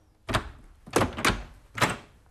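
Door sound effect in a Czech radio drama, heard as four dull, heavy thuds at uneven intervals, with no voices over them.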